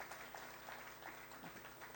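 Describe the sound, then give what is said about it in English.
Applause from a church audience welcoming speakers forward, a faint, steady patter of many hands clapping throughout. “Can we put our hands together? Just welcome them.”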